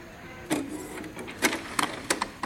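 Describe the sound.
A printer working through a print job gives off several short clattering mechanical bursts at uneven intervals over a low steady hum.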